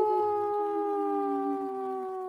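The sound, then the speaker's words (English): A woman imitates a wolf's howl in a ladies-only group howl. It is one long, steady, tonal howl whose pitch sags slightly toward the end, with no talk over it. “We have a ladies only howl today.”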